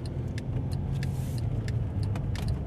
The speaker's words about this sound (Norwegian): Nå kjører vi inn i Spydeberg og tar til venstre mot i, Det blir sydvestover